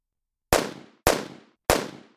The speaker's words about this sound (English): I heard the first two bullets go whizzing past me.